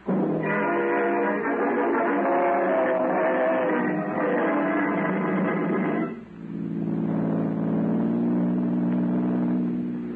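A car drives off, its engine droning loudly and steadily, then dipping briefly before carrying on at a lower pitch.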